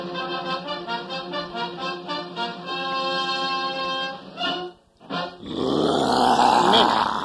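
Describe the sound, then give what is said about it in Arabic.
A lion's roar recording plays as a deep, rough growling with a pulsing rhythm that swells and holds for several seconds, then breaks off briefly before a harsher, noisier burst. “إنه مجرد تسجيل لصوت أسد يزأر.”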